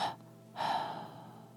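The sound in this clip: Two breathy exhalations through the mouth during a relaxation exercise: a short first breath, then a longer, softer release that tapers away.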